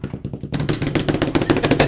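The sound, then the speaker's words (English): A rapid drum roll played as a lead-in to announcing a weekly giveaway winner: a few softer taps, then an abrupt, loud, clattering run of fast hits over a low rumbling tone. “What's wrong with my drum roll?”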